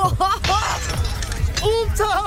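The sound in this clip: Something breaks into shards with a bright, crashing burst early on, inside an apartment hallway, while people talk throughout.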